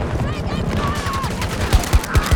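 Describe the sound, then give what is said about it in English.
Video-game gunfire rings out near bushes and a cave as rapid, crackling bursts of shots run under a man's talking. Several sharper, louder reports stand out toward the end. “He shot me through the bush. Through the cave place.”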